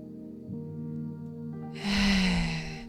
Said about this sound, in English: Taking a deep breath in.